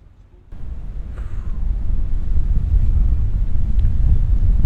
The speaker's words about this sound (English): So it's a really chilly cold wind blowing. And there's a bit of sleety, cold, wet snow in the wind.